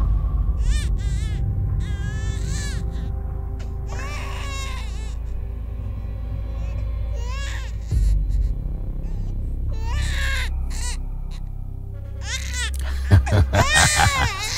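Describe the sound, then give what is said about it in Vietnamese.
Eerie crying of two ghost children at night, heard as several bursts of wavering, high, child-like wails that rise and fall over a steady low droning rumble. “rồi đột nhiên cả 2 đứa cùng cất lên tiếng khóc. Trong đêm, âm thanh của tiếng khóc nghe đến rợn hết cả người.”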